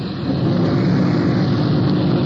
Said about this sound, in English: The streets are just a bit slick. We have to sort of watch our traction. Rolling a lot in second gear.